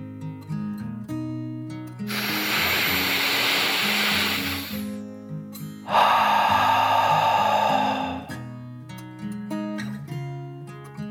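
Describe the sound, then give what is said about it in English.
A deep breath drawn in and then let out, in a children's bedtime story: two long, airy whooshes, the inhale lasting about three seconds and the exhale about two, over soft, gentle background music. “She took one last deep dragon breath, in and out.”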